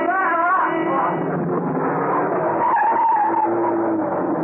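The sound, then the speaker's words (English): Tyre squeal of a van skidding on a wet road as it rounds a corner: a loud, sustained screech with wavering pitch that runs for several seconds. “The van, coming round the corner, skidded as it tried to avoid him.”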